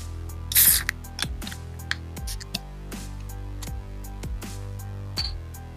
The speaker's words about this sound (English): Are you drinking air? It was a juicy crack out of this Moosehead Rattler.